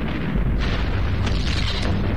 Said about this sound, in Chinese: 一米，两米，三米，黄继光奋力扔出了手雷，便一头栽倒在地。